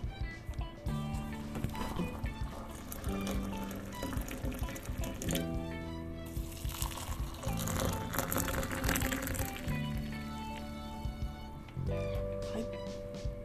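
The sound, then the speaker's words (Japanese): Hot water is poured, about 300 cc each, into bancha with kishimame beans and into habu tea, a soft steady liquid trickle under faint tonal background music. “熱々の湯が目の前に、ありますのでこれを 300cc ずつぐらい、入れていきたいと思います。”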